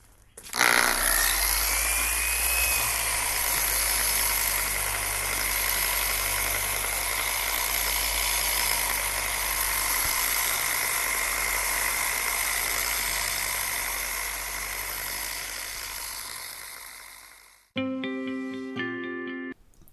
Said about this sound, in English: and I'm diving into the starboard side now. And we'll dab a little wax slash compound onto the buffing wheel, and then away we go.